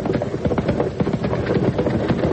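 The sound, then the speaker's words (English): Horse hooves clip-clop as a rider comes up: a dense run of many quick, sharp hoofbeats at a steady, fairly loud level throughout. “Hey, here comes somebody riding up.”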